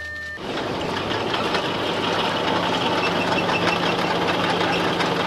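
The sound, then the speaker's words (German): A tunnel boring machine cutting a bore about three metres wide into a mountain, with a long conveyor belt carrying rubble and debris out of the tunnel. It makes a loud, steady, dense mechanical roar that continues unbroken. “Ein bisschen weiter vorne frisst die Tunnelbohrmaschine ein Loch mit einem Durchmesser von gut 3 Metern in den Berg rein.”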